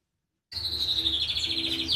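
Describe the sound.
Birds chirp in an aviary that houses a cockatoo: a continuous, high, wavering twitter starts abruptly after half a second of silence and carries on without any voices.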